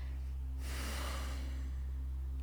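A slow exhale through the nose during a guided stress-relief breathing exercise: a soft, breathy rush that swells and then fades, heard alone over a steady low hum.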